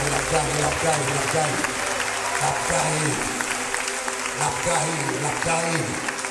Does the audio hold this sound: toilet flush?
no